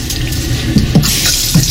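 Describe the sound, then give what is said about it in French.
Water running from a tap onto dishes in a sink, a steady loud rushing hiss of flowing water broken by a few soft, low splashy knocks as the stream hits the crockery. “C'est de l'eau qui coule. Ah, c'est rempli de l'eau. Sur la vaisselle ? Oui. Et c'est la bonne réponse !”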